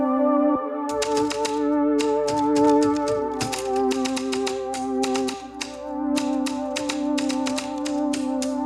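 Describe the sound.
Key strikes on a Malling-Hansen writing ball typewriter clatter in fast, continuous runs of sharp metallic taps over a steady, sustained tonal drone.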